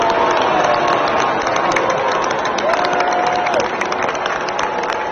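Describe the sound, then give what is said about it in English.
Mixed crowd reaction in a stadium as Senator Mitch McConnell appears on the Jumbotron: dense clapping blended with vocal crowd noise, a steady loud wash with a brief sustained tone near the middle. “Yeah, about half booing and about half, you know, it's kind of polite.”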